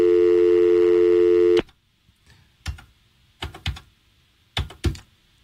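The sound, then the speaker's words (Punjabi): Phone tone after a dropped call: a steady, loud buzzing tone with strong harmonics holds for about a second and a half and then cuts off abruptly. A few scattered faint clicks and taps follow. “ਮੇਰੇ ਖਿਆਲ ਤੁਹਾਡਾ phone call drop ਹੋ ਗਈ”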